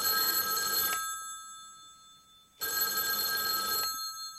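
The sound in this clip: A telephone bell rings in two long, bright bursts about a second and a half apart. The ringing is loud and steady, with no voices over it.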